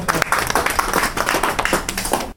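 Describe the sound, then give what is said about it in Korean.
A church audience applauds in a dense, lively patter of hand claps that stops abruptly just before the end. “예, 박수 다시 한 번.”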